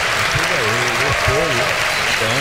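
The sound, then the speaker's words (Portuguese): Applause for samba artist Monarco da Portela at a samba show, steady clapping throughout while a voice talks over it. “Nosso padrinho, Monarco da Portela. Por favor, palmas para ele.”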